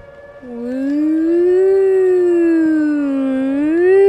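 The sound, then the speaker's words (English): A person's voice imitates a loud alarm siren with one sustained "woo" that rises at the start, then holds steady with a slight waver. “Could you imitate the alarm sound for me?”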